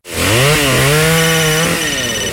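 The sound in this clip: A chainsaw cuts wood: a loud, sustained engine whine lasts about two seconds, with a short dip and recovery in pitch early on and a slight drop near the end. No voices are heard.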